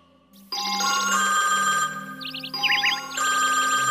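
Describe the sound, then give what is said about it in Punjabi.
A telephone rings while a call is placed: a loud electronic ringtone starts abruptly and plays warbling high trills over a steady tonal bed, with no voices. “ਲਾ ਤੇ ਫਿਰ ਸੁਨਰ ਨੂੰ phone.”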